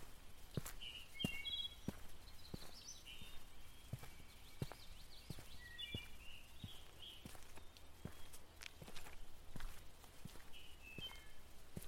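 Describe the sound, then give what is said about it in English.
Footsteps on a walking path land at a slow, steady pace, faint and soft, while birds chirp now and then in the background. “Just take some time for yourself and enjoy your walk for a bit.”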